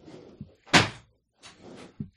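A door being opened, marked by one loud, heavy thunk, with softer bumps and rustling before and after it.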